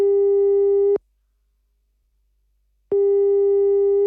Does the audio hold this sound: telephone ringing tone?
yes